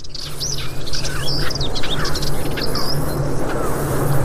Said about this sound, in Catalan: comencem a sentir, per exemple, la puput se sentia també, i alguns tallarols